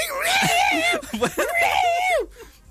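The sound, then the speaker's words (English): A voice imitates two cats fighting with wavering, high yowls and screeches. Two long, bending wails are broken by a short burst of choppy, spitting sounds, and the yowls end abruptly. “I heard two cats fighting. Cats, honestly, it's like a cat battleground going around my house.”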